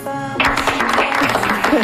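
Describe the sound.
A studio audience applauds during a French-language quiz show: a dense patter of clapping starts abruptly after a short tonal note and continues loudly, with voices over it.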